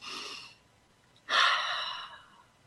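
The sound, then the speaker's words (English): A deep breath taken during a guided meditation: two soft, airy breaths alone with no voices, the second one louder and longer than the first. “So let's just one deep breath”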